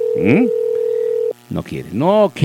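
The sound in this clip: A telephone ringback tone sounds while someone is being called, a single steady mid-pitched beep lasting about a second. A voice overlaps its start, and talking follows after it stops.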